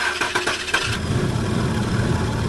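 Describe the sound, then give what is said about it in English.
An old car's engine cranks in rapid sputtering bursts for about a second, then catches and settles into a steady, low, rough idle. “Do you have a car that sounds like this?”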